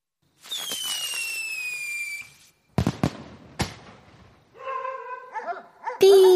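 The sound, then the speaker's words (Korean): A whistling firework stuck in a soil-filled flowerpot shrieks for about two seconds with a slightly falling tone, then loud bangs and crackles follow. Neighbourhood dogs then yelp, whine and bark excitedly. “삐익! 타타타타탕! 요란한 소리와 함께 불꽃이 폭발했다. 우리 동네, 윗동네 할 것 없이 개들이 미친 듯이 지저댔다.”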